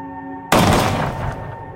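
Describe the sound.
A single sharp gunshot fired at a water bottle on an old corral fence. It is a loud, abrupt crack with a long decaying tail, and a steady tonal hum comes before it.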